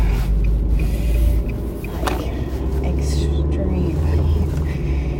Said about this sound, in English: It was very busy, and I'm driving right now.